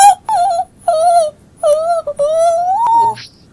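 A dog whimpering, a series of several high-pitched, drawn-out whines with wavering pitch and short breaks between them, loud and heard alone.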